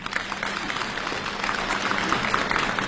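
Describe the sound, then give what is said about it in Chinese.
Steady, dense applause from a theatre audience after a comedy duo is introduced at a stage show; a continuous even clatter of many hands with no talk over it. “感谢朋友们的掌声。”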